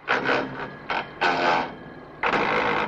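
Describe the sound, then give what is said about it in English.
Anguished grinding of a gear change: a few harsh, rasping mechanical bursts of uneven length, separated by brief gaps, with no voices. “can we have the anguished grinding gear change clip?”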